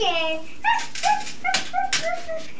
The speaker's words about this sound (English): That sounds like a dog to me